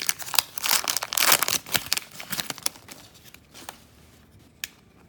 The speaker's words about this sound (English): On the other side of the pack. See if we can open this and not ruin the cards.